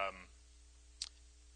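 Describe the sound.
A computer mouse gives a single sharp, faint click after a brief fragment of voice, with a low steady hum underneath.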